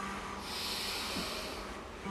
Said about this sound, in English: We're gonna inhale, lift the right leg up.